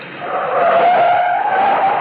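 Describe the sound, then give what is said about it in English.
An old sports car gunned up to a curb gives a loud, sustained tire screech over engine noise, holding steady for about two seconds with no talk. “The car jock gunned my old sports car up to the curb.”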